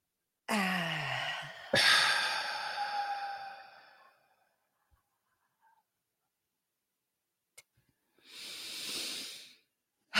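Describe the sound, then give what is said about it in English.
Deep breaths are drawn in during a guided calming exercise. A voiced sigh comes first, then airy breathing that swells and fades away. After a quiet pause, a second softer breath follows. “Take a deep breath in.”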